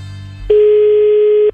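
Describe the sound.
A steady telephone tone sounds while a call is being placed: one unbroken, even beep that starts abruptly, holds at a constant pitch for about a second, then cuts off cleanly.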